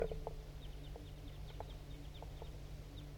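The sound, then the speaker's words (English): A flock of crossbills flying over, giving many faint, high, short chip calls scattered irregularly above a low, steady background rumble. “Wait. There goes another one. Big flock of crossbills just flew over.”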